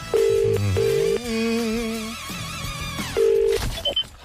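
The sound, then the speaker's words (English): Electronic telephone tones sound as a number is dialled: two steady beeps at the start and a third near the end, with wavering tones between them and a few faint clicks to finish. “Let me make a phone call. He's punching in the numbers.”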